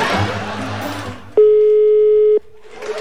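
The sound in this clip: Ring tone of an unanswered telephone call: one steady, mid-pitched tone lasting about a second. Broad noisy sound comes before it and returns after it.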